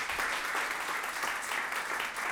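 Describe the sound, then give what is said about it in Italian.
An audience applauds at the end of a round-table discussion. Dense, even clapping holds at a steady moderate level for the whole stretch, with no voices standing out. “Per Roberta Pinotti, Piero Formenti, Mario Zanetti e Stefano Messina vi chiedo un grande applauso, grazie di essere stati con noi.”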